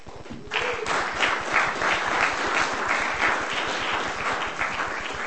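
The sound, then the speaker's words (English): Audience applause at a poetry reading: dense, steady clapping that begins after a brief quiet moment and carries on evenly for about five seconds. “Nate Goldeisen, ladies and gentlemen. Give him a hand.”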